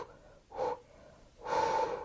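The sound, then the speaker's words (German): A person imitates a horse's greeting, blowing two soft, breathy pulsed exhales as if through flared nostrils, a short one followed by a longer one, quiet and alone. “Die machen, wenn sie sich begrüßen, die Nüstern weit und atmen so pulsartig aus. Das ist die Begrüßung beim Pferd.”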